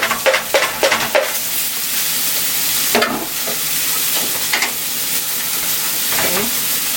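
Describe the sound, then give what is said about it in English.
Food sizzles and hisses in a pan as it is stir-fried, with several sharp bursts of a utensil scraping and tossing against the pan over the steady frying noise, no voices. “Stir fry.”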